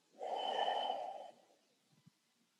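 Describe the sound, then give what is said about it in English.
A single deep, slow breath drawn in and let out at the close of a calm relaxation exercise. It is soft and airy, lasts about a second, and is followed by a couple of faint clicks in near silence. “We'll end with a deep breath in and letting it out.”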